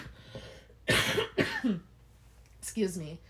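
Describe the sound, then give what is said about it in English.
A few harsh, chesty coughs from someone whose cough is loosening and bringing up phlegm, sounding as sharp bursts with voiced, throaty sounds in between. “excuse me about that. But you see how my cough seems to, it's obviously breaking up now, and all this stuff is coming up easier.”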